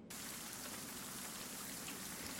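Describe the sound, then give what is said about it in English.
Steady rain during a game scene as characters step back outside: an even, soft hiss of falling rain that starts almost at once and continues unchanged throughout. “as Demetrius opens out the gatehouse, and you guys are back out in the rain”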